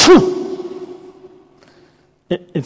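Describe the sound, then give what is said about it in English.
A voice imitates a horse sneezing with one sharp, blown snort at the start that trails off in a long echo through a large hall. Quiet follows, then two short vocal sounds. “it's literally the same word that means a horse sneezing.”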